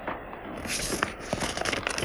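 Paper envelope being opened and handled, with other envelopes tucked inside: dry crinkling and rustling, punctuated by a few sharper crackles and tearing sounds. No voices.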